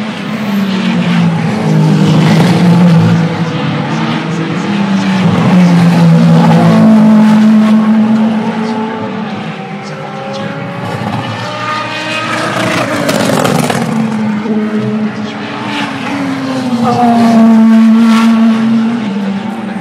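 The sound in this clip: Loud engine of a Ferrari car driving at about 150 km/h: a sustained, buzzing motor note whose pitch climbs and drops several times, with the volume swelling and easing in waves.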